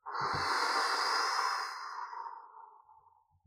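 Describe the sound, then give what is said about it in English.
One long, forceful exhale blown out through the mouth during a meditation practice, a breathy hiss that starts loud and fades gradually over a couple of seconds, followed by faint soft noises. “What I do is I blow out with my breath”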